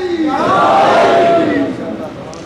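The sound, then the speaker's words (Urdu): A crowd at a religious gathering shouts a slogan together in answer to a call: one loud, sustained collective shout that holds for about a second and a half, then eases off into a lower murmur. “نعرہ”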